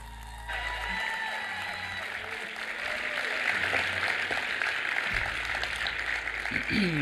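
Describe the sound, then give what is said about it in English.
Applause and cheering from a church audience welcoming a guest onto the stage. Dense, steady clapping starts after a brief pause and continues throughout, with crowd voices and cheers mixed in. “So make sure you make a lot of noise. Put your hands together.”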